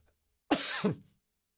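Two quick coughs from someone with a tickle in the throat, harsh and fairly loud, coming one after the other in silence.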